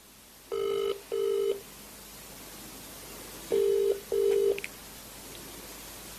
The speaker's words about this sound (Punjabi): ਲਓ ਜੀ, ਸੁਖਸ਼ਿੰਦਰ ਸ਼ਿੰਦਾ ਜੀ ਨੂੰ ਫੋਨ ਲਾ ਰਹੇ ਨੇ ਮਨਜੀਤ ਪੱਪੂ ਜੀ, ਕਿਉਂਕਿ ਬੜਾ ਦੋਸਤਾਨਾ ਸੰਬੰਧ ਹੈ ਇਹਨਾਂ ਦਾ। ਦੇਖਦੇ ਹਾਂ ਫੋਨ ਚੱਕਦੇ ਕਿ ਨਹੀਂ।